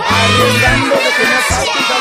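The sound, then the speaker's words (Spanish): A crowd of children shouting and cheering with jubilation: a dense, loud, continuous roar of many high voices that holds steady for about two seconds. “Ahí está toda la chiquillería, toda la infantería rebosante de júbilo y felicidades.”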